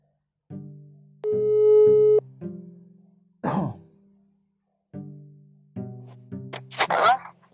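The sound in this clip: Telephone busy signal heard while placing a call: a few short electronic tone bursts separated by silent gaps, including one longer steady tone, with brief rough noisy bursts between them.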